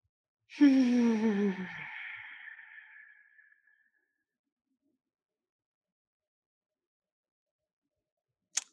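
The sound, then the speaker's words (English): A deep breath taken during a guided breathing exercise: one long, audible sigh that starts strong and fades over about three seconds, then silence until a brief click at the very end. “And the third breath, inhale deeply.”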